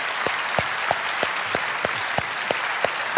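A church audience applauding a guest preacher with a dense wash of clapping, sharp louder beats recurring at a steady pulse of about three per second throughout.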